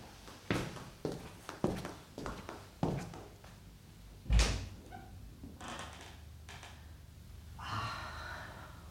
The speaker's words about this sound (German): Sie öffnet die Tür zur Terrasse.